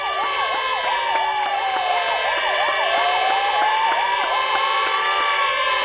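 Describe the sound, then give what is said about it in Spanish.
Police and fire brigade sirens in Spain wail together in a loud, continuous chorus: one rapid yelping tone repeats quickly over a slower rising and falling wail. No voices are heard. “Las sirenas de los cuerpos de policía y de bomberos en España suenan a esta hora en todos sitios para agradecer a la población su comportamiento en esta crisis histórica.”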